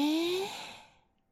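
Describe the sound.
A long breath is drawn in during a breathing exercise, a soft, airy hiss with a faint voiced tone that fades out after about a second.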